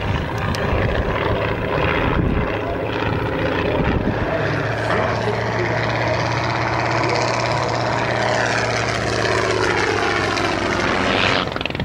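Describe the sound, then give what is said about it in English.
Propeller engines of a WWI Sopwith Camel biplane and a Fokker Dr.I triplane drone in a mock dogfight, a loud, continuous buzzing roar with shifting engine tones throughout. “This year, the two old foes met once again and renewed their struggle for supremacy in the skies over Almaca.”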